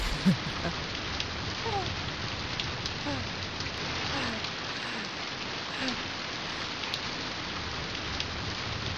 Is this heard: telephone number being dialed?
no